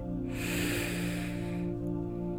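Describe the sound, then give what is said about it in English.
A deep, steady breath drawn in through the nose lasts about a second and a half, a soft rushing hiss over a sustained tonal musical background. “a deep breath in through the nose”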